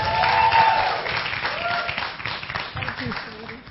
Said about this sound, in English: So give me a hand and welcoming Miss Melva Lee Beecham.